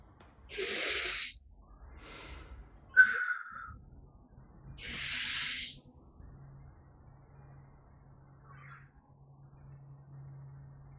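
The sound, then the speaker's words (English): A few slow, deep breaths in and out are heard as soft, airy hisses separated by quiet pauses, faint and without talk, with a low steady hum in the later part. “so how we normally begin is just to take a few deep breaths in and out.”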